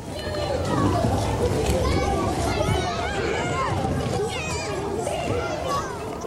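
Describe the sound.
Children playing at a noisy junior school fill the air with a constant babble of shouts, chatter and young voices, loud and unbroken throughout.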